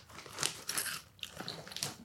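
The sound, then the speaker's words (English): Teeth biting into giant Peruvian Inca crunchy corn with sea salt give several sharp, crisp crunches in an irregular rhythm. The crunches are fairly faint, with no talk. “No, Rolling Pin giant Peruvian Inca crunchy corn in sea salt.”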